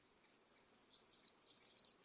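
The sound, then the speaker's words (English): Tennessee warbler song: a rapid run of many high, dry staccato notes that speeds up and grows slightly louder toward the end, heard alone without other sounds. “These are Tennessee warblers.”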